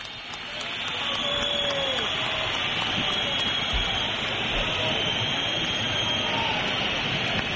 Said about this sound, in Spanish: fuerte pitada, no, fuerte pitada. Está claro, sí, sí. Los que han aguantado ha sido para mostrar su desacuerdo con el partido que han visto